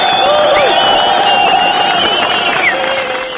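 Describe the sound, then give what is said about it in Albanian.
A crowd cheers Palestinian President Mahmoud Abbas outside his headquarters in Ramallah, with flags waving. A dense, continuous din of many voices and shouts carries loudly throughout. “Turmat valvitnin flamujt dhe përgozonin presidentin 76 vjeçar jashtë selisë së tij në Ramallah.”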